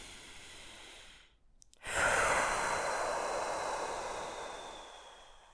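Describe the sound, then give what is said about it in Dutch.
A breath drawn in through the nose is followed by a brief pause and then a long, steady exhale through the mouth, breathy and fairly loud, fading slowly toward the end with no talking. “In door je neus en lang uit via je mond. Dat doe je een aantal keer.”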